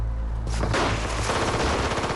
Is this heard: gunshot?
yes

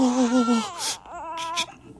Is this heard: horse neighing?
no

